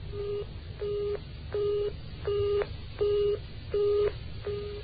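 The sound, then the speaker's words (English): A telephone busy signal after dialing a wrong number: seven evenly spaced, low, steady beeps separated by brief silences, moderately loud and alone. “He's dialed the wrong number. Then he tries again.”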